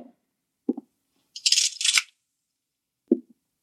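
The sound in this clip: A curtain being drawn gives a brief swishing rush of bright hiss lasting well under a second, set between a few soft, low knocks, with no talk.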